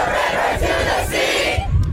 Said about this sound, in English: And today's demonstration was organized by faculty members. At one point, the crowd chanting the phrase, quote, "Israel is a racist state."